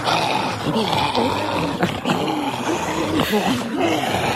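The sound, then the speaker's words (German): Zombie growls from a zombie-chase running game app, heard through headphones: continuous, guttural moaning and snarling with wavering, voice-like tones, steady and fairly loud throughout. “So klingen die Zombies, die dann sie zwischendurch bei der App Zombies Run jagen.”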